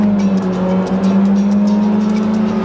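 A Ferrari sports car engine holds a loud, steady, low drone at an even pitch throughout, with no other sounds over it.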